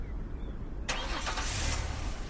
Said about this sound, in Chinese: 汽车刚驶出明公馆